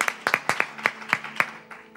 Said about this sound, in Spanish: If you're receiving something this morning, ladies, si usted está recibiendo algo esta mañana, déle un aplauso al Señor.